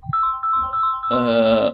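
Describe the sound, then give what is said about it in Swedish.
A mobile phone ringing: a few short electronic tones in a simple melody, then a sustained buzzy, harmonic-rich ring, fairly loud and heard on its own. “nu ringer min telefon sådär”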